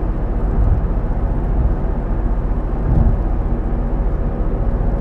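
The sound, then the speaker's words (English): Steady low road rumble from a car driving on cold, flat-spotted tires, a dense vibrating drone with a few heavier throbbing swells and no voices. “Can you hear the squareness on my tires? Because they're cold and flat. Vibration.”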